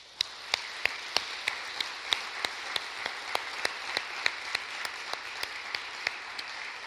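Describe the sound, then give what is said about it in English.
A church audience applauding to welcome newcomers: a steady wash of clapping with many sharp, evenly spaced claps that keep a regular beat throughout, with no voices. “But I do want that all of us who are regular attenders will just put our hands together and say, welcome.”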